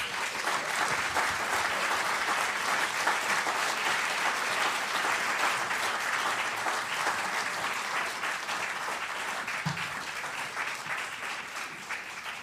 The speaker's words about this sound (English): So without further ado, let's give a warm Philadelphia welcome to Jim Comey and George Anastasia.